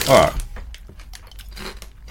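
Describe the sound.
Crunching of Twisties snack chips being chewed: a loud crisp burst at the start, then a run of fainter, irregular crunchy clicks.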